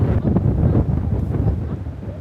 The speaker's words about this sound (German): Der Wind ist noch stärker geworden.